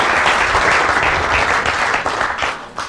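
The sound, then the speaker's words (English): Audience at a men's retreat applauds to welcome a speaker, with dense, continuous clapping from many hands. It holds loud and even, then thins slightly at the end. “Give a warm welcome to Gayle Jackson, would you?”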